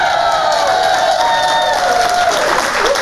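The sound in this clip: Cheering and applause from a New York City studio audience, loud and sustained, with shouts and whoops over continuous clapping.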